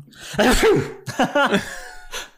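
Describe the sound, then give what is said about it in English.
A voice imitates a sneeze for a magically sneezing beard: a breathy, gasping build-up, then sharp explosive sneeze bursts and a short trailing exhale. “That sound is Malrus's beard is now sneezing.”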